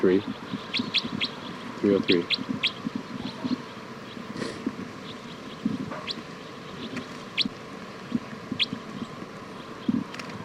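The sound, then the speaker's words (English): Many short, high bird chirps come in scattered bursts throughout, bright and fairly faint, over a steady low hum and rustling background. “This is bird”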